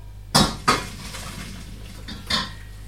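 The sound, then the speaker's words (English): A metal pan clanks while cooked pasta is drained in a home kitchen: a few sharp, ringing knocks of metal against metal, two close together and then a softer pair after a pause, with no talking. “The next bit you need to do quite quickly, so I'm going to drain it.”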